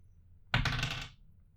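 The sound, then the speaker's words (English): A six-sided die being rolled gives one short rattling clatter of about half a second, sharp at the start and then fading, with no talking. “I've got a 6-sided die here. If I roll a 1 or a 2, we'll do a movie. 3 or a 4, we'll do a game. 5 or a 6, TV series. Let her rip.”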